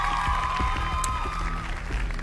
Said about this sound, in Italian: quindi un applauso a Francesco, bravissimo.